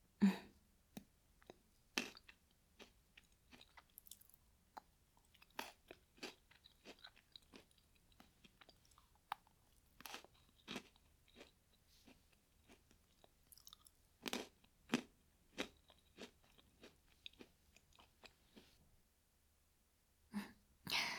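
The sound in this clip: Crunchy Pocky stick snack being eaten, with many quiet, irregular crisp bites and chewing crunches across the whole stretch. No one talks, and there is a short silent gap near the end.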